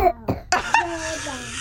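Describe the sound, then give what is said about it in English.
A baby coughs a few short, sharp times in quick succession, then a voice holds a steady, sung tone for the rest of the moment. “the baby is coughing in the background”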